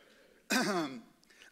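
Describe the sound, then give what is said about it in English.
A single short throat clearing, one rough voiced burst lasting about half a second, heard alone against a quiet background. “excuse me, I got something caught in my throat.”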